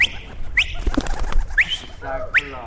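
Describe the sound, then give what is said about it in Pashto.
Short, bright calls from a flock of about twenty kept pigeons in Ghazni. A few quick rising chirps stand out over a low, steady rumble. “د نوموړي شاوخوا شل ساتلې کوترې ډېرې سپینه او شنه رنګونه لري.”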